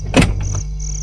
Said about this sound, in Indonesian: Ketoke ono tamu, Mas? Tak buka kesek lawange.